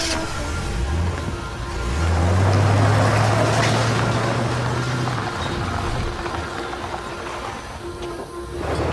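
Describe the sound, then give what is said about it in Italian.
A car driving off on the road, its low engine drone swelling as it pulls away and then easing, over steady broad road hiss that carries on throughout. “E la macchina filò via, di nuovo in viaggio, per la California.”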